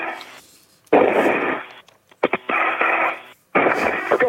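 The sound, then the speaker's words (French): A hatch door on the International Space Station is kicked shut as an astronaut leaves for open space: a few loud, muffled bursts with a thin, radio-like tone, separated by short silent gaps. “Eh bien ça, c'est le bruit de la porte que l'on referme derrière soi à coups de pied, hein, quand on entre dans l'immensité du vide spatial. Bah oui, il s'agit bien sûr de l'ISS”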